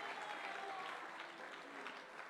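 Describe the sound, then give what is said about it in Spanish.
A church audience applauding during a service, giving faint but continuous dense clapping at an even level throughout. “Démosle ese aplauso a Cristo, a su palabra, gloria a Dios.”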